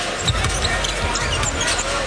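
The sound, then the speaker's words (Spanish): A basketball is dribbled on the court during a game, with a few dull bounces under steady crowd noise and voices. “bota con la izquierda, se la cambia a la derecha”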